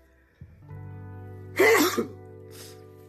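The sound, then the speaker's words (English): A loud human sneeze bursts out sharply, followed by a fainter breathy sound, over a steady low hum. “probably the loudest sneeze you ever heard”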